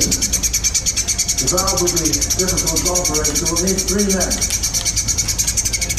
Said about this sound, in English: This is the birds.